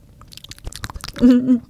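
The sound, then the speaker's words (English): Mouth noises of chewing while tasting a slightly sweet food: many small wet smacks and clicks in an uneven rhythm, then a brief voiced murmur near the end. “I hear all the mouth noises. It's a little sweet.”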